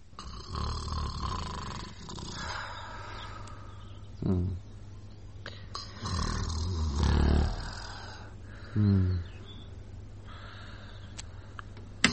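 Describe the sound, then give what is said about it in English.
A woman snores lightly in bed at dawn, a few low, rasping snores spaced several seconds apart over a quiet, steady background hum. “the lady in the next bed snoring a light obbligato”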